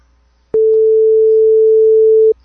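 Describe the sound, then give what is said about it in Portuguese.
A telephone dial tone sounds while a call is placed. It is a single steady mid-pitched tone, loud and alone, that starts abruptly, holds for nearly two seconds and then cuts off. “Então você... Vamos lá, vou ligar pro Elias.”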